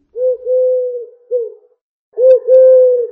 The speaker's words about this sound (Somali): balse shimbirtan dhawaaqeedu waa qoolley